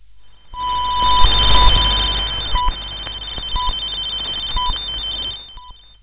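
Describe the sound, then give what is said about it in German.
Radio time signal marking 19:15 GMT: a longer tone and a series of short, high beeping pips about a second apart, over a steady background hiss with a faint high whine. “Mit dem langen Ton des Zeitzeichens war es 19 Uhr 15 Minuten 00 Sekunden GMT.”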